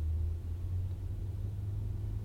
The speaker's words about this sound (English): I'm recording this right now at 8:45 in the morning in my car in Austin.